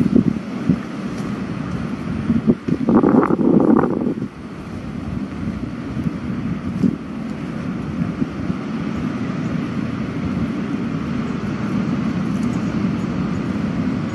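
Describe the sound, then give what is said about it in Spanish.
Wind blowing hard near a fishermen's beach on a foul-weather day, a steady low roar buffeting the microphone throughout, with one stronger gust early on. “El viento, pero nos estamos acercando a la playa de los pescadores.”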